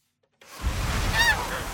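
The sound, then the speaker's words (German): A brief goose honk rises once over a steady rushing background on a farm, where a large flock of geese stands crowded together in the shade under poplar trees. “Trotz der vielen Gänse gibt es gerade wenig Geschnatter am Hof der Familie Lehner. Die Tiere stehen dicht gedrängt im Schatten unter Pappeln.”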